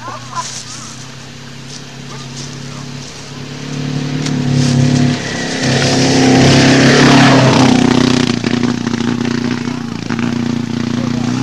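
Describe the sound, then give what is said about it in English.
A Volvo car engine runs rough on only two cylinders, giving a sick, uneven low drone that swells louder midway and stays loud toward the end. “Slow Volvo. Not running. Sounds sick. Doing okay for two cylinders.”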